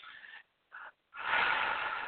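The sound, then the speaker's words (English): Deep breathing during a guided relaxation, in through the nose and out through the mouth: two short airy breaths, then a longer, louder rushing breath, heard alone without talk. “So just close your eyes, take in three breaths, in through your nose, out through your mouth,”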